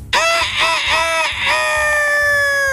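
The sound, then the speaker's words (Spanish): A rooster crows loudly on its own: a few short arching, harmonic syllables run straight into one long held call that carries to the end. “haz de cuenta que este gallo era tan flojo que cantaba a las 11 de la mañana”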